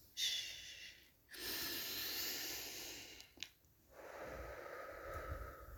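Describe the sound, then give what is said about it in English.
Slow, deep human breathing comes as a few long, soft, hissing inhales and exhales. The breaths are quiet, unhurried and separated by brief pauses, with no talking. “take deep breaths. Slow.”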